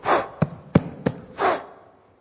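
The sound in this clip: A voice imitates breath blowing dust away, with two soft, breathy puffs of air at the start and end and three short, faint clicks between them, quiet and alone.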